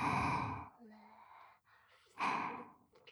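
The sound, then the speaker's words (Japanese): Deep breathing: a long, strong breath, then a quieter stretch of softer breath sounds, then another full, forceful breath. Faint overall, with no words. “大きく吸って、大きく吐いて、吸って、”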